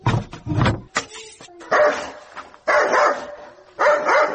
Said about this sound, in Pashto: څه بیا دا سپی وګوره چې نه مو پرېږدي، چغه شه ورک شه.